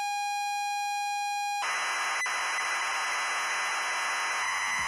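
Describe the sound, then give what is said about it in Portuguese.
Computer program data loading from cassette tape on an old home computer: a steady pitched leader tone, then an abrupt switch to a harsh, continuous modem-like screech of noisy data that runs to the end. “parece som de modem e tal. Então, o que acontece? Esse som é a forma como se gravava programas nesses computadores antigos, inclusive no TK-95”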